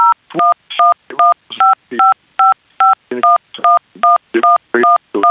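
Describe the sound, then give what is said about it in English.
Loud phone keypad tones sound as a number is dialed during a phone call, in a rapid, fairly even series of many short two-tone beeps separated by brief gaps. “you broke up there a little bit. There was as if you were typing in a number into your phone there. That's the beeps that came across.”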